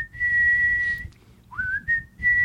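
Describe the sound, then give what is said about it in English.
A person whistles a song melody: one long, steady, clear note, a short break, then a note that slides upward and holds before settling back into the sustained tone. “I would whistle really badly.”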